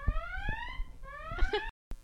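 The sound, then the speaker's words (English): A phone rings with a bright, electronic, alarm-like ringtone. Two rising harmonic tone sweeps are heard, separated by a few soft thumps, before the sound cuts off abruptly near the end. “That was not a car alarm. That was my phone ringing.”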